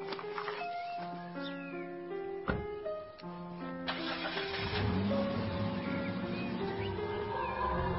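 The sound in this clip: A car engine starts and then runs with a rising, steady rumble, mixed under music.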